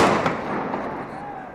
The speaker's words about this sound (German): Immer wieder detonieren Tränengasgranaten.